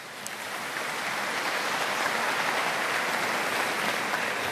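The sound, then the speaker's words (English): A round of applause for visiting priests from the Diocese of Meath, swelling in during the first second and then holding as an even, hissing wash of many people clapping. “Yes, you deserve that. You deserve the round of applause”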